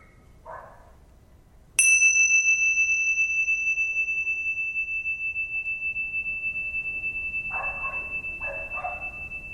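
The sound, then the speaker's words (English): A meditation bell is struck once and rings out in a bright, sustained tone that wavers gently and fades slowly over several seconds, with quiet surroundings before the strike. “what you're doing is you're listening to the sound of the bell moving through time, or time moving through the sound of the bell”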